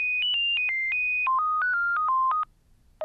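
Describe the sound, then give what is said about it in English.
A melodic electronic telephone ringtone plays as a rapid run of clear, pure beeps that step up and down in pitch, then pauses before a single final beep. “It's not just this generic sound that's been chosen for you by the telephone company. It actually can carry something of you in it.”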